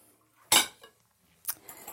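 A utensil clinks and scrapes against a bowl while dough ingredients are mixed, giving a few short, bright knocks separated by quiet, the first the loudest and the later ones fainter.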